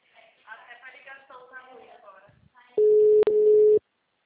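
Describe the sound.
Telephone dial tone heard while a number is being dialed: a steady, loud, mid-pitched tone lasting about a second with one brief break in the middle. It comes right after a stretch of people talking.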